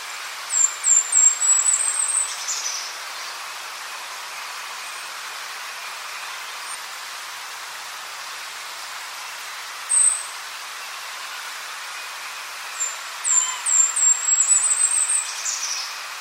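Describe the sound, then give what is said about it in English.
Golden-crowned kinglet song: two bouts of very high, thin, rapid notes, one at the start and one near the end, with a single brief high note between them, heard faintly over a steady soft hiss. “So once again, that was the Golden Crown Kinglet.”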